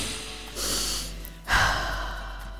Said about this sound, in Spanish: Respira profundamente.